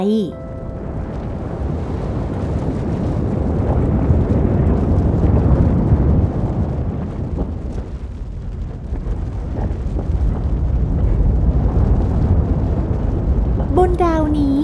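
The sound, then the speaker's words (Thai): Deep, continuous roaring rumble of many volcanoes erupting constantly on a planet, a loud, dense and steady wash of low noise that swells and eases slightly throughout. “มีภูเขาไฟมากมายปะทุอยู่ตลอดเวลา และปลดปล่อยพลังงานความร้อนสูงออกมา”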